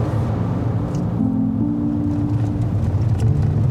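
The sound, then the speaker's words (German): A car drives into a village in the hilly Uckermark countryside. A steady low engine and road rumble continues throughout, with a faint tonal hum briefly rising out of it midway. “Jetzt fahren wir rein in die Uckermark.”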